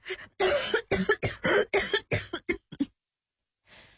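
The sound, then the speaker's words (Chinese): A woman, recently recovering from pneumonia, coughs nonstop in a rapid run of many harsh, loud, voiced coughs with barely a breath between them. The run breaks off into a short silence. “陈蜜霜的妈妈突然咳嗽不止”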